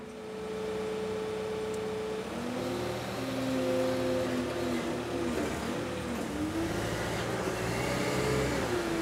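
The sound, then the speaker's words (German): Steady mechanical drone of a farm manure blower running but pushing only air into cattle stalls despite a new copper seal; a fairly faint tonal hum whose pitch wavers slightly midway, with no voices. “Da kommt nur Luft. Was? Das hört sich nur nach Luft an. Trotz neuer Dichtung, das Gerät bläst keinen Mist in die Liegeboxen.”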